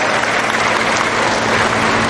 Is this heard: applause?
yes